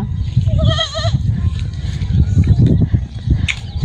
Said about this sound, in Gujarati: બકરી બહેન ને બે સુંદર બચ્ચા